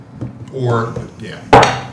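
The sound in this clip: Dice roll across a table during a tabletop game, a brief, sharp clattering rattle that follows a short stretch of speech.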